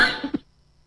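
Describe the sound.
A person gives a short cough: a sharp, loud burst followed by a smaller catch, then quiet.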